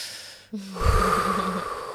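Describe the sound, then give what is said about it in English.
A person demonstrates a deep breath with their own voice, a long, soft rush of air lasting over a second, breathy and moderately quiet, following a brief pause. “I see his face and then I just see him take a deep breath like...”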